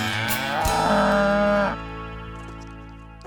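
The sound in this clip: A cow gives one long, loud, low moo with a rich, slightly rough tone. It cuts off to a quieter, fading tail.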